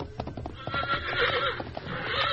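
A horse whinnies loudly over clip-clopping hooves, a drawn-out, wavering neigh rising above quick hoofbeats as the animal is urged along.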